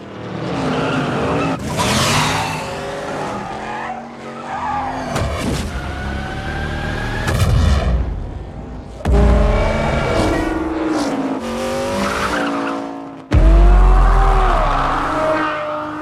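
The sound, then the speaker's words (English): Car noises used as a sound effect in a funeral scene: squealing, skidding tires and revving engine whines in several loud bursts, some sharply louder, with tonal whines sliding up and down in pitch and no voices. “Oh, I just assumed that was the car. Yeah, I thought it was just standard car noises.”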